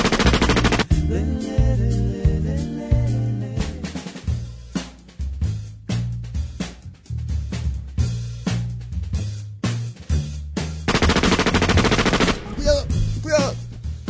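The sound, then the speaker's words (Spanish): Gunfire erupts from all sides, with dense, loud volleys of rapid shots cracking in quick succession throughout, occasionally thinning briefly before building again. “Disparando de todos lados.”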